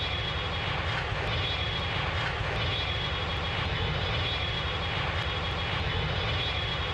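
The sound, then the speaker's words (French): Loud, steady roar of an airplane engine during takeoff, a constant dense drone that holds evenly throughout with no breaks. “Décollage. Attachez vos ceintures.”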